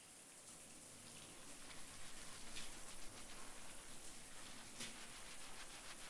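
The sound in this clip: Running water rinses a child's hair at bath time. A continuous, even hiss of flowing water with faint splashing stays at a steady level throughout.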